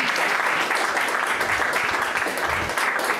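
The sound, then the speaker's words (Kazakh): A live audience applauds at a show in dense, steady waves of hand claps. The applause stays loud and continuous throughout, with no voices standing out. “ал шапалақтарыңды тоқтатпаңдар”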